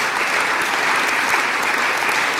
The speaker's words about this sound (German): Vielleicht haben einige schon den Impuls, das mit einem Applaus zu bedenken. Dann wäre das, auch wenn es jetzt nicht gerade gewaltig erschien, ein guter Zeitpunkt.